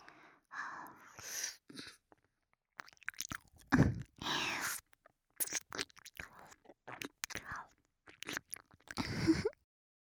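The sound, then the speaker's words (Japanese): Teeth gently biting and rubbing an ear in an ASMR setting make soft, crunchy, crackling bursts, many close irregular clusters of chewing-like friction separated by short pauses. “挟んだ歯でコリコリって何度もこするように噛んで、”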